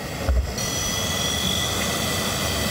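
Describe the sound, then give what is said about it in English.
Delivery drone in flight, giving a steady, broad whirring rotor noise with a faint tonal hum and a low thump near the start. “These are effectively drones, but there's no reason that they can't be used as delivery vehicles.”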